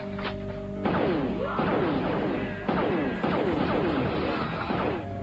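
Gunfire and blasts from a video game battle fill the whole stretch as a dense, loud, continuous barrage of sharp impacts, with bursts arriving in quick succession and no pause between them.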